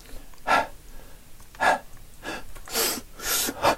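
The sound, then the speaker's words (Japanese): Audible breathing from a quiet contemporary stage performance: a series of sharp, breathy inhales and exhales at irregular intervals, each a short airy burst against near silence. “そういうね、こう息遣いだけが聞こえてくるから、本当になんか舞台を見ているような音が聞こえてくるんですけど”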